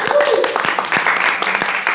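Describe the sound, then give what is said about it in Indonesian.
Audience applause at a café music night, a short run of steady clapping with a faint tonal hum beneath it. “Boleh minta tepuk tangannya dulu.”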